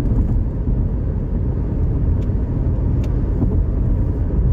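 Steady road noise inside a car on a long drive, a constant low rumble of tyres and engine with no talk.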